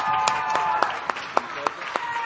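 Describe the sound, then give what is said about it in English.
Audience clapping to welcome the band Crossfade at a student gathering: a steady, evenly spaced series of sharp claps over a constant murmur of crowd noise. “Hey, give a hand for these guys. We're stoked to have them here tonight.”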